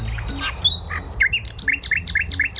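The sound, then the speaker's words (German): Nightingale song: a rapid series of bright, high chirps and whistles that settles into a regular run of repeated sharp notes, loud and clear over a low background hum, with no voices. “Ist das ein Spatz? Nein, das ist eine Nachtigall.”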